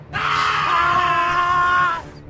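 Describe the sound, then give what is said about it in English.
A man screams as he is cut down in a crossfire: a loud, piercing scream held for about two seconds at a steady, strained pitch before it breaks off abruptly. “And they all screamed like that when they died.”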